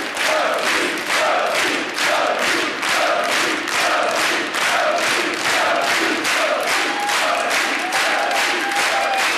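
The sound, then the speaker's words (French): A studio audience at a French television show claps in unison, loud and steady at about two beats per second, while crowd voices cheer and chant along throughout. “Ça aura été l'émission la plus longue en applaudissements. 2 heures d'émission, 1h55 d'applaudissements.”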